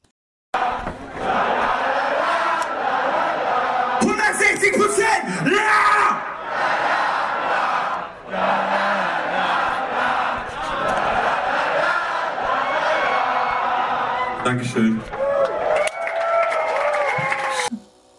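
A concert crowd cheers at the end of a song with a dense, loud roar of yells, screams and shouting. It runs almost without a break through the whole clip.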